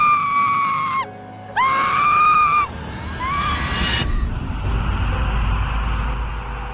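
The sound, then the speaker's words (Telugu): A loud, high-pitched scream in a horror story set in a biology lab: two sustained shrieks separated by a brief gap, trailing into a fainter cry over a low rumbling background. “అప్పుడే హఠాత్తుగా ఒక అరుపు వినిపించింది”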